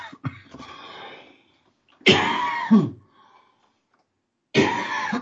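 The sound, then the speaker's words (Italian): A few harsh coughs from a man who is speaking come as separate sharp bursts with silent pauses between them, and the first is followed by a shorter second rasp. “mi scuso per la tosse”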